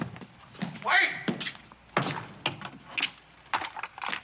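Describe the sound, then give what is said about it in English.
A door closes with a dull thunk, a short thud heard among people talking, with a few other soft knocks and bumps nearby. “Door.”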